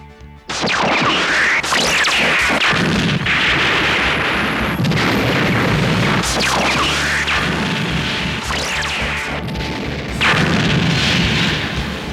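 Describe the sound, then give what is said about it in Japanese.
A sci-fi warship takes shell hits to its engine section and fires continuous volleys back, a loud, unbroken barrage of booming blasts and crashing explosions with sweeping whoosh-like streaks that runs throughout. “多元機関区に被弾。主反応の出力低下。 D 弾 G 弾連続発射。”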